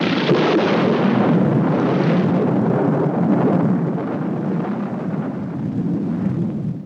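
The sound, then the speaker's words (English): A TIE fighter explosion sound effect from a space battle: a loud, continuous roaring rumble that holds for several seconds and eases off slightly toward the end. “X-Wing laser fire. It's beautiful. TIE fighter blows up.”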